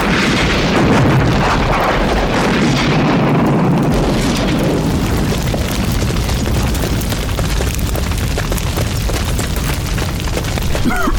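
A propane tank taken off a grill explodes in a fire, releasing a loud, dense rumbling roar that stays heavy and steady throughout, with a rough crackling texture.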